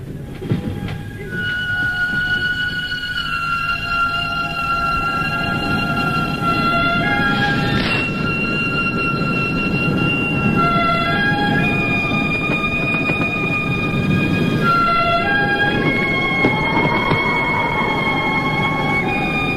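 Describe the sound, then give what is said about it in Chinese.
A train travels through winter with two detectives escorting a prisoner aboard. A steady, loud rolling rumble fills the whole clip, with sustained high tonal notes layered over it. “接着是冬天，两个刑警压着耕作坐上火车。”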